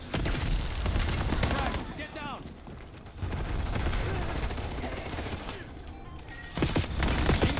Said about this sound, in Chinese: 佢把炮塔喺度。 点解系射我唔射我啲队友？